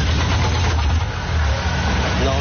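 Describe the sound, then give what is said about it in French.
Engine of a Philippine jeepney bus running on natural gas: a steady, continuous low rumble that holds an even level with no clear revving throughout. “depuis quelques semaines, le bruit et la fumée qui sortent de son jeepney ont quasiment disparu, car celui-ci est maintenant alimenté au gaz naturel.”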